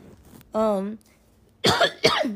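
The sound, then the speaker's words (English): Coughing from someone with a sore throat, two harsh, close coughs that follow a brief voiced hum. “Like, I keep coughing. Like, my throat is so sore.”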